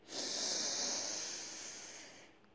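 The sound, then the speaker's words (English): A deep breath drawn in during a relaxation exercise: one long, airy hiss that begins abruptly and slowly fades, heard alone with no talking. “relax your shoulders, relax, and take another deep breath in.”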